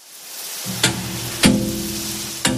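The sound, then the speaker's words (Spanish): An olive hopper at a small family olive oil mill in Zafra, Badajoz, starts up with a low, humming mechanical drone, broken by three sharp metallic knocks spaced irregularly across the run. “Este sonido, estoy tocando yo, es el de una tolva por donde entran las aceitunas cuando llegan aquí a donde nos encontramos, que es la almazara El Molino de Zafra.”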